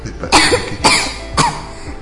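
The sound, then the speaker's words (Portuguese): A child coughing: three sharp, harsh coughs at an even pace, loud and alone. “Papai, eu tô com tosse.”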